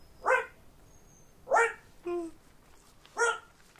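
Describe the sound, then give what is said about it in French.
A dog barks four times, each bark short and sharp and spaced about a second apart, with the third bark lower and flatter than the others. No one speaks. “Oh, n'oublie pas de laisser sortir le chien.”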